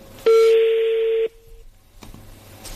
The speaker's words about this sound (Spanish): A ver, marco de nuevo.